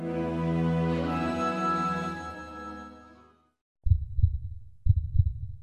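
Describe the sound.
A heartbeat sound effect: two deep, low double thumps in a steady rhythm come right after a sustained humming tone fades away.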